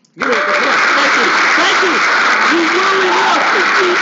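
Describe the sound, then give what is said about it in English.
Round of applause sound effect: dense, steady clapping starts abruptly and holds at an even loudness for about four seconds, with some voice-like tonal sounds mixed in underneath. “Tell you what, I need to give myself a round of applause because I said,”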